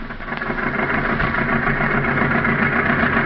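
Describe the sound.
A car engine idling, a steady, continuous low rumble with even vibration and no change in pitch, running alone without voices.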